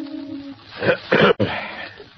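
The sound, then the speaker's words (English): A man clears his throat in a few rough, breathy bursts of moderate loudness, with no speech. “Vincent Kirby clears his throat.”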